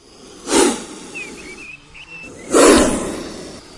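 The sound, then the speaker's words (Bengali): Snake hissing from inside a crack in a house wall: two loud, breathy bursts of hiss, the second longer and stronger, separated by a quieter stretch. “একই ফাটলে খোঁচা দিতে সাপের গর্জন বলে মনে হলো।”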